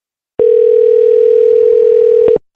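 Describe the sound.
A telephone ringing tone: one steady, unbroken tone at a single pitch, lasting about two seconds, clear and loud with no voices over it.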